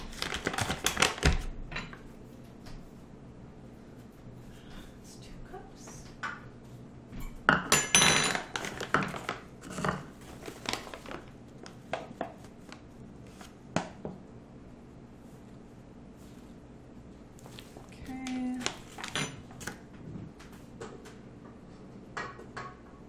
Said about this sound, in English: so now I need to add the 2 cups of flour, 1 teaspoon of baking soda, and the spices. Okay. Mix that up.